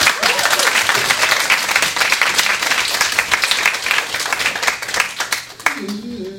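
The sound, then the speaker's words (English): Audience applause welcoming a performer onto the stage, loud dense clapping that holds steady for several seconds before easing off as a voice comes in at the end. “ladies and gentlemen, please put your hands together and give a warm welcome for Tyre.”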